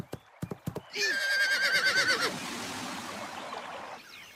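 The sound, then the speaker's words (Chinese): A horse gives a loud, shrill whinny, wavering for over a second while being ridden, after a few sharp clip-clop hoof beats. A steady, quieter background noise continues afterward. “只见他骑着马往后倒退了几步，再一使劲儿，扬鞭奋蹄，马直接跨了过去。”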